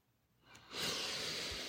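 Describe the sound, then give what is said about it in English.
One long deep breath: a soft, airy rush that starts faint, swells to a steady breathy hiss and holds there, with no talk. “Deep breath.”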